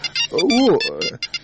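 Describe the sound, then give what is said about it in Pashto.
A phone rings with repeated bright electronic beeps in short bursts, while a voice speaks over the middle of the ringing. “زنګ دې درته زویا.”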